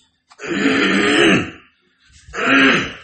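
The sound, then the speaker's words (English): A person clears their throat twice, each time with a loud, rough, rasping burst lasting about a second, separated by a short pause. No speech. “my throat starts basically messing with me and I have to clear my throat”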